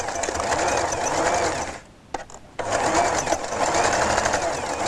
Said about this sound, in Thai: เดี๋ยวนี้คุณครูจะเย็บให้ดูอีกหนึ่งเกล็ดนะคะเอาเท้าทับผ้าปักลงไปค่ะแล้วเราก็เย็บนะคะเย็บ